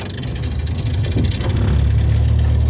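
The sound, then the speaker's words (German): A boat's engine runs as the vessel sets off along a canal, a steady, loud low rumble with a throbbing mid-range chug that holds level throughout. “Zurück an Bord der Diener. So, dann werden wir mal weiterfahren.”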